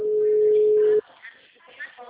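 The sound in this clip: A telephone ringback tone while waiting for someone to answer a call: one sustained, steady, low tone lasts about a second and then cuts off, followed by a voice speaking.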